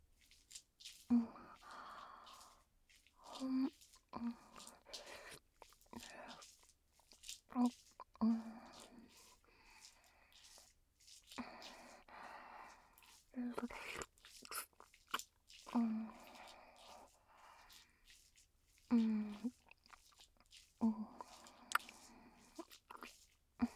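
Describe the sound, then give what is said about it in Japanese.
Someone bites and chews a lightly sweet, milky-tasting snack, making many soft crunchy clicks and wet chewing sounds in uneven bursts, broken up by quiet whispered speech. “ああ、お姉さんと一緒に食べよっか。”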